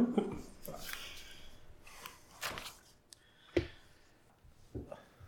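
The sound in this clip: Faint, ragged panting after running up the stairs: several heavy breaths and snort-like exhalations spaced unevenly, each swelling and fading, with quiet gaps between them.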